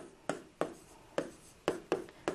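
An English sentence being written by hand. About six soft, scratchy pen strokes come at an uneven pace, faint and with no voices.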